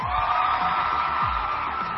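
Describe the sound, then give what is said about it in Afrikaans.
A crowd at a high school gathering cheers and whoops in a continuous roar of voices, with sliding shouts rising above the steady din. “Kom ons gee vir hulle groot applous.”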